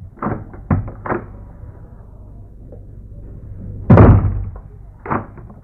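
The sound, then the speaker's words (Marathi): A door being opened gives a few dull knocks and thuds, then one louder, fuller bang near the middle and a last lighter thump, with quiet gaps between the sounds. “दार उघडाना.”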